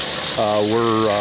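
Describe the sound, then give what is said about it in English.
Piston aircraft engines of a pair of T-28 trainers roar through a run-up before takeoff: a steady broad rumble with a droning low tone that enters partway through and holds to the end. “We have a pair of T-28s that are just rolling out now in front of us. That's what the run-up noise you heard a moment ago.”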